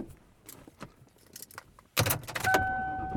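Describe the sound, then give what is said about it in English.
Keys jangle and clatter inside a car that is being driven home. At about two seconds a louder, steady surge of vehicle noise sets in, with a thin sustained tone running above it. “And I am driving home.”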